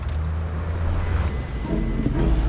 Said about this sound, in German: Kurz darauf fuhren wir in Mr. Hoodies sehr gemütlichem Auto in das nicht ganz so gemütliche Londoner Industriegebiet. Vor der Fabrik kam das Auto zum Stehen und wir stiegen aus.